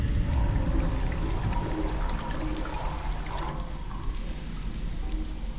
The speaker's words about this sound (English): She steps onto the liquid as it flows into a drain.